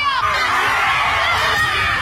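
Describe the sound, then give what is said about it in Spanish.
Loud crowd shouting and yelling at a ritual in a forest where people break sticks, a dense, continuous wall of overlapping voices with no pause throughout. “Aquí los rituales. Mira, rompen palos, gritan.”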